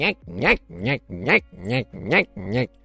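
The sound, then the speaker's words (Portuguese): A voice imitates the creak of a cart pulled by two small donkeys, six repeated nasal, creaky syllables in an even rhythm, each with a bending pitch contour. “Instalaram-se numa carroça puxada por dois burrinhos. E lá se foram. Nhec,”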